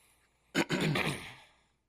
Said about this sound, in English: How we going to clear our throat at the same time?